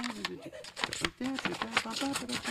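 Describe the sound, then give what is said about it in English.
Left-handed scissors snip in a quick run of many crisp, sharp cuts under continuous talking. “when I use my left-handed scissors with the blade on top, I can now cut with all the confidence of a right-hander. Just snip, snip,”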